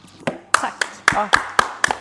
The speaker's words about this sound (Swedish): En stående ovation.